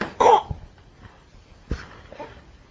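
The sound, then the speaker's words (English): A person coughs in two sharp, fairly loud bursts with a weaker catch in between; no speech. “Cough.”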